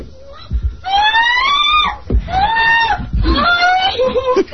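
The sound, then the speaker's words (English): Screaming in a run of long, loud, high-pitched cries, each strained and wavering in pitch, separated by brief gaps. “I can't take the screaming anymore. Isn't that horrible?”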